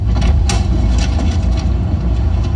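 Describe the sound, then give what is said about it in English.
A car engine while driving gives a steady, loud low rumble that holds without a break throughout. “I'm literally driving to pick up a check right now.”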